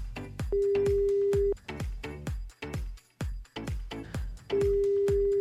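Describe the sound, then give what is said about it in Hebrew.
A telephone being dialled to call someone's mother during a game. Rapid groups of clicks run throughout, and a steady low tone sounds twice, once near the start and again near the end. “שושנה, בוא ננסה לחייג.”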